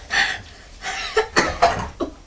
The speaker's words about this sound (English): Oh dear, is it making you cough?